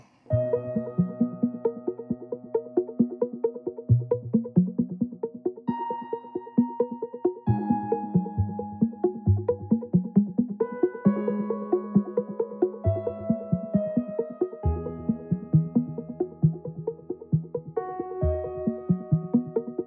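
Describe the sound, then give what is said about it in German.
Film score from Pixar's animated film Soul: a bright, steady run of many plucked keyboard-like notes with layered chords shifting every few seconds, purely instrumental and evenly loud. “Mit ihrer gemeinsamen Arbeit bei dem Pixar-Animationsfilm Soul. Und das klingt so.”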